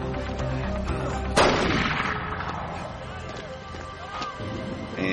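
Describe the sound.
A gunshot is fired into the air during a chaotic fight. One sharp, loud crack cuts through a dense, noisy background and then fades back into the din.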